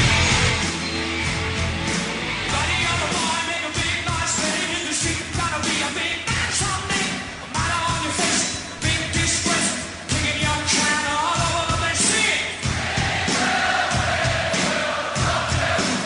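A live rock performance recorded at the Live Aid concert in 1985 plays as a dense, loud full-band mix with driving drums, keeping a steady, high energy throughout.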